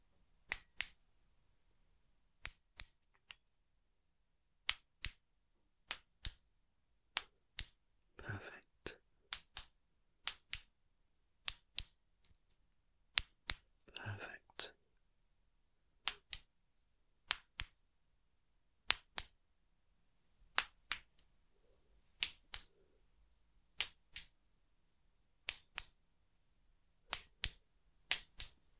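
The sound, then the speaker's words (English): Sharp clicks from a hearing-test device, many short faint ticks spaced at roughly even intervals across near silence. “make some clicking sounds, and they sound like this. I'll just begin on the left hand side, and just let me know if you can hear it clearly,”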